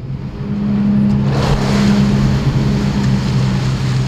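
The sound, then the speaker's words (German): Low engine drone of a 30-metre research ship casting off and heading out on the Elbe. A steady humming rumble swells in the first half second, then holds even, with a faint breathy wash of wind or water over it. “Wir legen ab in Ort Kaaten in der Nähe von Hamburg und fahren auf der Elbe Richtung Nordsee.”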